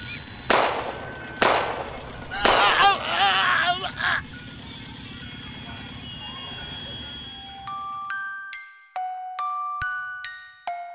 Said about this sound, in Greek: Σταμάτα τώρα ρε, αλλιώς πυροβολώ ρε, θα πυροβολήσω ρε!